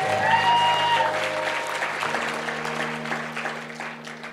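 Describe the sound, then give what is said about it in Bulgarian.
A church audience applauds steadily for the whole stretch, the clapping dense and even, with faint sustained tones lying beneath it. “О, ако ръкопляскаш, ръкопляскай като че го прави за Исус Христос.”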